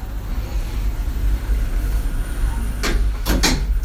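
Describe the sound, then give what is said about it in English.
Lift doors sliding shut, heard as a few brief, noisy swishes near the end over a steady low hum. “fermeture des portes. Doors closing.”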